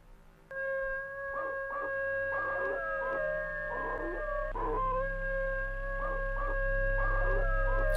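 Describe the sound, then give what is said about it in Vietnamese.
A black dog howls long in a yard at night: a sustained, steady tonal wail held for several seconds, broken by repeated louder pulsing cries, loud and alone. “Đột nhiên con chó mực ở ngoài sân, nó tru dài lên một tiếng, sau đó rồi sủa lên inh ỏi.”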